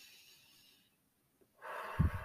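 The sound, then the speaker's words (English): Deep inhale during a guided breathing exercise for releasing energy: after faint hiss and a near-silent pause, one breathy intake begins and stays fairly strong to the end, with a slightly snorting, airy texture. “let's end this session with taking deep breaths again. Breathe in”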